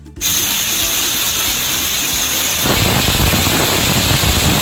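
Steam hisses loudly and steadily from a pressure cooker whistle while lentils cook. The hiss starts abruptly, runs on without a break, and turns a little louder and rougher toward the end. No voices are heard.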